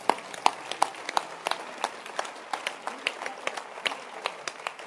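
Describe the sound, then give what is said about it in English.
Congregation clapping hands during a church service: many sharp, evenly spaced claps in a steady rhythm, fairly faint and sparse, with no talking over them. “Keep clapping your hands. Keep clapping your hands.”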